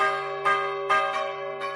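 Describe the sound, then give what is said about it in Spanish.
Church bells ring with a sustained, humming metallic resonance, renewed by about four strokes at uneven intervals that each add a brighter burst to the steady tone. “antes las campanas y el toque de campanas servía para todo”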